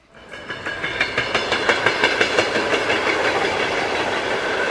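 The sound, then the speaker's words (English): A train rolls along the Trans-Siberian railway, its wheels beating a steady, regular clickety-clack over rail joints. The rhythm fades in at the start and then holds at an even level throughout, with many repeated clacks. “Here's a little snapshot, a little more of you from riding the rails across the Trans-Siberian.”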